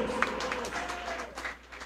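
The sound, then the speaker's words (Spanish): A church audience applauds during a sermon with faint, scattered clapping that rises and falls in soft bursts beneath a speaking voice. “Dele fuertes aplausos a Cristo en esta tarde, hermanos.”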